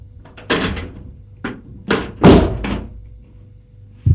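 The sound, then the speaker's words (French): A cupboard is opened and a bottle and two glasses are taken out: a series of knocks and thuds of uneven spacing, some louder than others, with no talking. “ouvre un placard et sort une bouteille et deux verres.”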